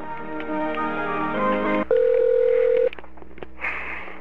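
Telephone tones sound as a call is transferred: a steady line hum, then a loud buzzing tone held for about a second, followed by a few short beeps and softer line noise.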